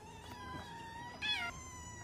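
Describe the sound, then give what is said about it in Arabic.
A mother cat and her kittens she is weaning meow: a few faint, high, drawn-out mews, one louder and brighter partway through, with no talk. “القطة ما بدها ترد على صغارها.”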